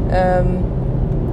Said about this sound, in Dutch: Want op de een of andere manier kan ik altijd het beste podcast opnemen in de auto. Dat geeft natuurlijk wel wat geruis, dus excuses daarvoor eventueel.